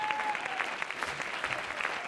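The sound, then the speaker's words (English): A church audience claps during a worship service, producing dense, steady and fairly loud applause that holds evenly throughout, with no clear pauses. “Let's clap our hands unto him.”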